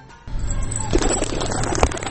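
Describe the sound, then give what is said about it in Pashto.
Pigeons cooing, kept by a young pigeon keeper in Takhar, Afghanistan: low, soft coos sit beneath a steady, noisy background that starts abruptly just after the opening moment and continues to the end. “وایي چې کوترې د سولې سمبول دی.”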